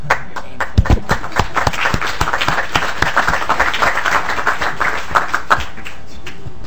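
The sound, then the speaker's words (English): Applause for a group of students: many hands clap in a loud, steady patter for over six seconds, with a few sharper claps standing out. “Let's give them a hand.”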